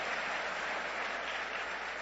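Congregation applauding to praise God after a prayer in a Spanish-language church service: soft, steady clapping from many hands, even and continuous with no voices over it.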